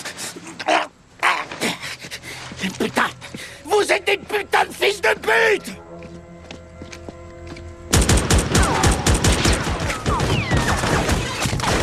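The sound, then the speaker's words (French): Gunfire is aimed at a van: a dense, loud, continuous volley fills the final seconds. Before it come men talking in sharp bursts and a brief steadier tonal passage. “Tirer sur ce fourgon et c'est nous que tu vas flinguer, sac à merde.”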